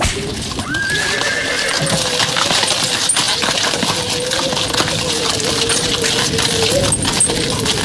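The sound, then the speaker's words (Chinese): New horse-drawn carriage with tasselled trim clip-clopping along a hutong lane past street vendors: steady hoof clicks over a continuous noisy bed, with a horse's whinny early on. “漂亮的新马车抖着流苏转过弯来，一路擦过一些小贩的身边，嘚嘚地往前走。”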